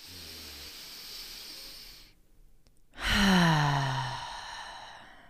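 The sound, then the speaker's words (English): Deep belly breathing: a long, soft breathy inhale, a brief silent hold, then a loud sighing exhale whose voiced tone falls in pitch as it trails away. “why don't we start by all taking a deep breath together, all the way down into the belly.”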